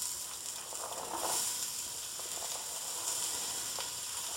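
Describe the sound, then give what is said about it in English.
Onions sizzle as they fry in hot olive oil in a soup pot, a steady, bright crackling hiss that holds at an even level throughout with no talk. “It's also close to its smoke point when you're using olive oil in particular. So watch it carefully. In go the onions.”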